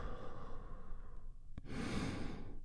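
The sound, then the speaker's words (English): A deep breath during a guided breathing exercise: a long, soft inhale, a brief hush, then a fuller breathy exhale released out, all faint and without any talk. “And we do that by taking a big, deep, healing breath all together. Here we go. And release.”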